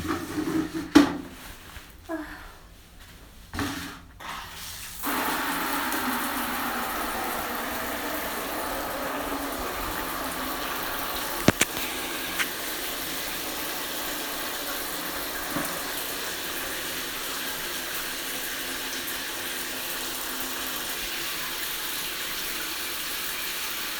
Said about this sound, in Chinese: 我先放一下凉水。